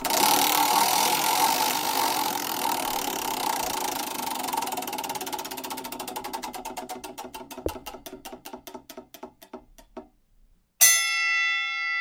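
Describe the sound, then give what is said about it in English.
A game wheel spun on a trivia night clicks rapidly, its ticks slowing and spreading apart until it stops, then a bright chime rings out alone. “All right, let's spin the wheel here.”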